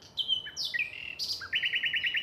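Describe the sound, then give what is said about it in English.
Male nightingales sing in a Berlin park in spring: bright, loud whistled and chirping phrases that shift in pitch, ending in a fast run of evenly repeated high notes. “Male nightingales have recently returned from Africa and are singing at full pitch.”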